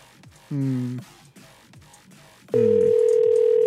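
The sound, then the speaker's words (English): Ringback tone of an outgoing telephone call. A short, steady tone sounds first, then after a pause a second, louder tone starts and runs to the end. “One ring this time? I'm going to keep calling until she gets annoyed.”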